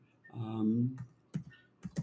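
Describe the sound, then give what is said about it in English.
Typing on a computer keyboard, heard as a few sharp, separate key clicks spaced irregularly across a couple of seconds, fairly quiet. “is typing it in right now”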